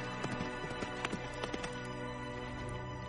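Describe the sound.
Horses gallop fast in a race, their hooves striking in many soft, irregular clip-clop thuds. The hoofbeats stay faint and fairly even in level throughout, with no voices.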